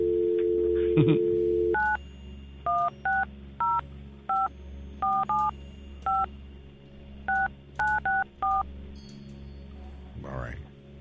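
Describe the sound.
Telephone keypad tones dial a number: a rapid series of short, bright electronic beeps at uneven spacing, each a two-tone chirp, after a brief steady tone at the start.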